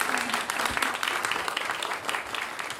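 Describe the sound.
An audience at an improv comedy show applauds to choose the scene topics: dense, steady clapping from many hands, a continuous rattling wash at low volume with no pauses.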